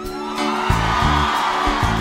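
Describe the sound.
A crowd shouts and cheers at a live church worship concert, producing a loud, dense roar of voices with whoops that runs continuously.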